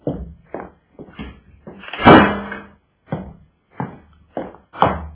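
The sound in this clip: A door closes with one solid, resonant thump in the middle, surrounded by several shorter, quieter knocks and shuffles.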